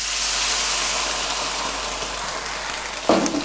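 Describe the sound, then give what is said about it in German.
Water pours into a cooking pot as a loud, steady rushing hiss lasting about three seconds, with a brief knock near the end. “Und jetzt geben wir mal geflissentlich das Wasser hinzu”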